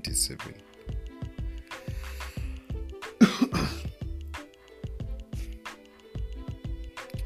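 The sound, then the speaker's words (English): A person coughs and clears their throat, with one harsh burst near the middle standing out among several quieter throaty sounds. “I have a cough.”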